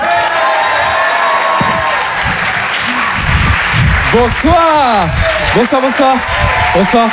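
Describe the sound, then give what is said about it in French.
A comedy club audience applauds a comedian with loud, sustained clapping and some cheering, and a voice speaks over the applause in the later part. “On peut l'applaudir encore une fois très fort, Elisabeth Buffet, mesdames, messieurs.”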